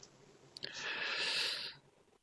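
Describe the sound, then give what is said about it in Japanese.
Faint papery swish of a tarot card deck being cut. A couple of soft clicks lead into a smooth sliding rustle that lasts about a second before it stops. “ストップ。はい。今のタイミングでカードをカットしました。”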